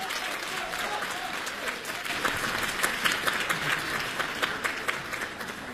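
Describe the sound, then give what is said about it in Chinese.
Audience applause welcoming two comic crosstalk performers onto the stage at a live comedy show in Beijing: sustained clapping from many hands, with sharper individual claps standing out and growing slightly louder midway. “《找堂会》，我们掌声有请。”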